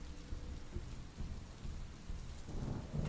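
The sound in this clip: Steady rain in a story scene where someone steps out into a downpour beside a grave under a tree: a continuous dense hiss with low thunder-like rumbling beneath, swelling slightly toward the end, with no voices.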